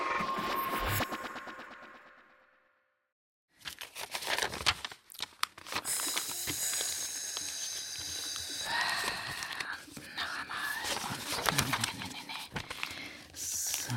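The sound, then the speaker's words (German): Something being folded over and over gives loud crinkling and rustling that crackles on and off, broken by a short silence early on before the handling resumes. “So, nochmal falten und nochmal falten und nochmal falten”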